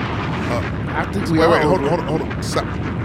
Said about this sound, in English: Hit it. Bombs.